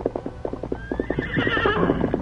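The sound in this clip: A horse approaching on a trail, its hooves clip-clopping in a steady, even rhythm. Partway through, a loud, shrill whinny rises over the hoofbeats and carries on to the end.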